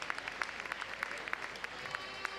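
Applause from a crowd in a town square after a song performance, many hands clapping in a steady, dense patter at an even loudness throughout.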